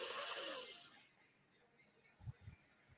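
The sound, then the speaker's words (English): A deep breath rushes out as a loud, breathy hiss for about a second, then fades into near silence with a few faint low thumps. “Inhale the good. Think of happy thoughts when you breathe in the good air.”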